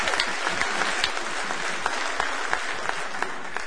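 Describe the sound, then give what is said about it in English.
Audience applause at a live band show: dense, steady clapping from many hands, evenly loud from start to finish without a break. “give yourselves a hand”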